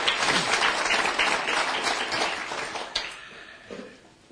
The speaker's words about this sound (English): Give the Lord a big hand, please.